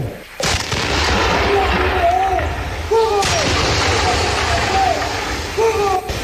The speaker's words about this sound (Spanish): ¡Batería, fuego!